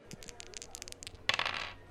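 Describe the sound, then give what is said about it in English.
Dice being rolled during a game: a faint, light rattle of small clicks, then a denser clattering burst as the dice tumble and settle. “Let's go for dice roll number 11.”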